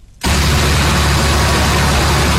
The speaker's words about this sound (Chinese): 在安徽宣城郎溪县建平镇的再生稻田里，收割机开足马力穿梭，切割、脱粒、装车一气呵成。